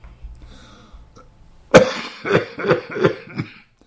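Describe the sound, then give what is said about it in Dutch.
A person coughs while smoking: a sudden harsh cough breaks out, followed by a rough fit of further hacking coughs, about five bursts in all, after a quiet start. “Sorry dat ik zit te hoesten, maar ik zit hier te roken.”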